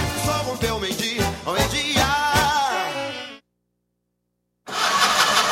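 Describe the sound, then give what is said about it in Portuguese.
A car engine cranks on a dead battery and fails to start: the starter grinds in a dragging rhythm, then cuts out, and after a brief silence a loud, noisy burst returns. “A bateria deu defeito? A BG vai ao seu encontro.”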